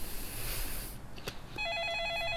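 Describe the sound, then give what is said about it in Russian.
A telephone rings in a home hallway. A warbling electronic ring starts partway through, after a stretch of hiss, and continues steadily to the end. “Сам Гена ушел в прихожую к телефону.”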